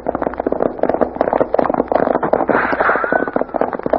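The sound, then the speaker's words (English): Gunfire in a gun battle: many sharp, loud shots crack in dense, irregular succession, overlapping bursts with no clear pause throughout. “There are some shots of kind I was talking about. Now get your knee unhooked from that saddle horn and let's start making tracks. That sounds like a regular gun battle.”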